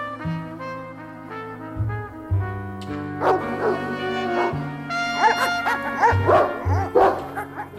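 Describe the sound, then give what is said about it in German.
Dobermann dogs bark and yip excitedly as they jump at a wire mesh fence, with many sharp, overlapping barks building over a steady low drone. “Die Hunde springen am Maschendraht hoch, bellen wie toll.”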